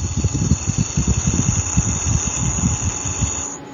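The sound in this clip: A thrown yo-yo spins on a dry, grinding bearing: a steady high whine rides over rapid, rough low rattling pulses, then cuts off abruptly just before the end.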